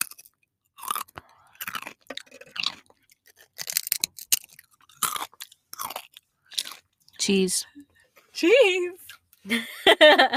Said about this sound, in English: Currently eating a Sun Chip. I love Sun Chips.